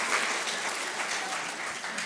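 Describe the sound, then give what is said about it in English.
Congregation clapping at a church service during a baptism celebration, steady, dense applause from many hands throughout. “I was hoping you guys would clap. Can we clap for that?”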